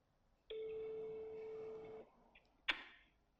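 A telephone ringing tone while a call is placed: one steady, even electronic tone lasting about a second and a half, followed by a brief sharp click, all fairly faint.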